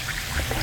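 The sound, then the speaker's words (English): An Alka-Seltzer effervescent tablet fizzes in water: a brief, dense hiss of bubbling with faint watery pops. “Hear that? That's Alka-Seltzer, the sound of fast heartburn relief.”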